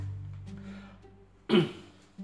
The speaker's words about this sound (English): And you'll notice that also that I'm coughing a lot because I have a cold.